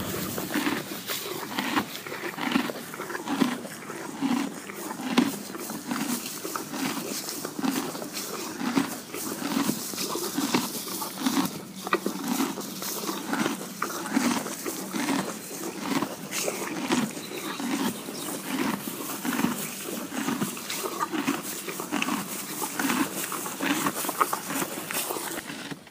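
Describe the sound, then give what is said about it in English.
A horse eating hay, with steady rhythmic crunching and chewing that repeats at an even pace throughout, mixed with soft rustling. “The sound you just heard is the sound of Lulu the horse eating hay.”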